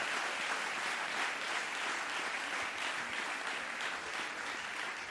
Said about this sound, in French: Give the Lord a mighty clap offering.